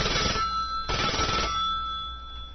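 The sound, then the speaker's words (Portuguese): A telephone rings on an outgoing call to a butcher shop: two short bursts of bright, buzzy ringing, then a thin, steady tone that lingers and slowly fades. “Vamos ligar lá para o açougue e ver se está tudo certinho por lá.”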